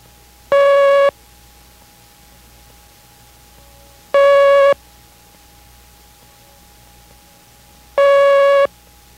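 Morse code letter T sent three times, three single long steady tones at a mid pitch, evenly spaced about three and a half seconds apart, with quiet between them and no voices.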